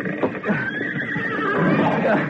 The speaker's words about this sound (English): Hurry! This is the last horse.